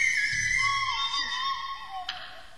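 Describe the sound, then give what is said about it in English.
A cheap tin whistle, or penny whistle, is played in a few sustained, high, breathy notes that slide smoothly between pitches, fairly soft and alone. “And this is the tin whistle, or the penny whistle as it used to be known.”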